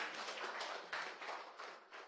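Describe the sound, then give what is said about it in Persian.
Applause from a school gathering for a teacher on the first day of classes: a sustained, dense wash of clapping that holds a fairly steady loudness throughout, with small swells. “آقا یه دست برای آقا معلم میزنیم.”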